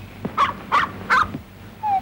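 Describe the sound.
A dog barks three times in an even rhythm. Each bark is short, loud and harsh.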